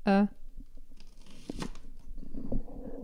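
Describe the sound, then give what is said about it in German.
Knife cutting onions for an egg dish, a few faint crunchy cuts spread over a low steady background, after a brief voiced sound at the very start. “Ich muss nämlich noch ein bisschen Zwiebeln schneiden.”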